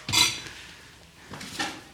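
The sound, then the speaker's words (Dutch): Fudge tubs are opened by hand. A sharp clattering knock comes first, then a softer pair of plastic-like clicks after a pause. No one speaks. “Ik ga allemaal bakken open.”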